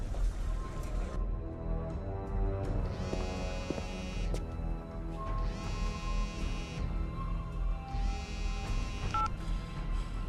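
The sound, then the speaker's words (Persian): A mobile phone rings with an incoming call from an unknown number, three bright, buzzing ringtone bursts repeating at an even pace over a steady low tonal bed. “یکی داره به گوشی آلیسون پارکر زنگ میزنه. از یه شماره ناشناس”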